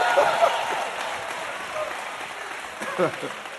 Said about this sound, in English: Come on, that's worth a few amens and hand claps.